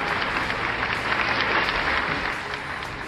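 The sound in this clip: Studio audience applause on a Spanish-language sports talk show: a steady, dense wash of clapping that holds at an even level for about three seconds, then eases slightly at the end.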